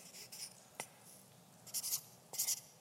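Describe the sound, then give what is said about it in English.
Faint pen-on-wood scratching as a statement is written on the end of a tongue depressor, coming in a few short scratchy strokes separated by quiet pauses. “I want you to write this statement. I'm sorry. I'm sorry. Write it right on the end.”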